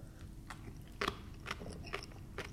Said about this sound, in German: Lass mal immer in Ruhe auskauen.